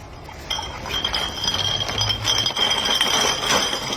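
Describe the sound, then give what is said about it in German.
Glass bottles in drink crates clink and jangle as they are carried on a bicycle handlebar. After a brief quiet start, bright rattling clinks run almost continuously, with some sharper knocks standing out over a low rumble. “Ich liebe dieses Geräusch, auch wenn man... Das Tragen von Getränkekisten.”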